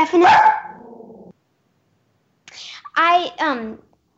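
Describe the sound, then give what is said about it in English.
A pet dog gives a loud bark that trails off into a lower drawn-out tail, followed after a pause by a person speaking briefly. “sorry, that's my dog.”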